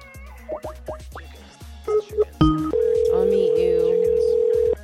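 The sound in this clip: A cat meows a few times in short, rising and falling cries, then a steady, loud telephone tone holds to the end.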